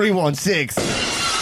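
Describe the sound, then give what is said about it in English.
Glass breaking as a sound effect, coming right after a brief spoken bit: a bright, noisy shattering burst that trails off into a steady, lingering wash. “Ooh, the glass is breaking.”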